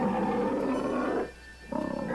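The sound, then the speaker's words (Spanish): A lion's roar: a loud, rough, sustained roar that drops away briefly, then returns as a run of pulsing growls. “De pronto se escuchó un rugido aterrador.”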